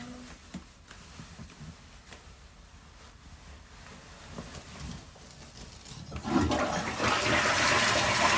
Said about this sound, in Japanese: うんちくんバイバイ。流してきます。